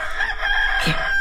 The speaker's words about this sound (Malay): Ayam berkokok, mak.